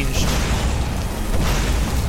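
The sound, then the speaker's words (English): Booming blast of the Unrelenting Force shout in a video game: a dense, rumbling burst of noise that stays loud and fairly even across about two seconds. “And I got Unrelenting Force! Force Brother! There we are.”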